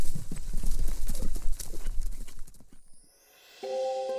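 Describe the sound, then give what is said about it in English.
A draft horse gallops with a rapid, steady clip-clop of hooves that fades away, followed by a few sustained tones. “and you're galloping toward the bridge. It would take you about 12 gallops to get to the bridge.”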